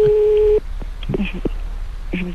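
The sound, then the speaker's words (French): A steady, mid-pitched telephone ringing tone on an outgoing call sounds for about half a second, then cuts off. Low voices follow. “Ça sonne chez moi, ça sonne chez moi.”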